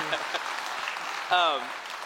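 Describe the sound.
Audience applause welcomes a guest to the stage as a soft, steady patter of clapping, briefly overlapped by a short voice.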